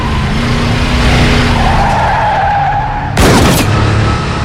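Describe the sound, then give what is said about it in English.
An SUV swerving and skidding while a gun is fired from the driver's window, long squealing tire whines over engine roar, then a single sharp loud blast near the end. “The man driving the SUV fires a gun from out of the driver's side window.”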